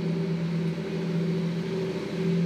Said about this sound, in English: what are these vehicles that keep going by, these big things like that?